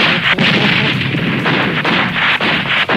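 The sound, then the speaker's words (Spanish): Heavy gunfire from a war scene, a loud, continuous roar of overlapping shots and blasts broken only by a few brief dips, with no voices. “¡Que nos ataca por el flanco derecho! Pero para los tiros.”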